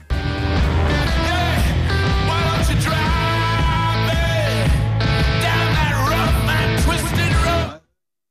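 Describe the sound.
A rock recording plays as a dense, full-band mix at steady loudness throughout, then cuts off sharply just before the end.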